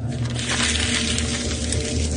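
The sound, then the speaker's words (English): Copy paper being crumpled, a continuous crackly rustling that holds an even loudness from start to finish, with a faint low hum beneath it. “All these pieces of paper that she's crumpling, they're all fake. It's just like, you know, copy paper from Staples.”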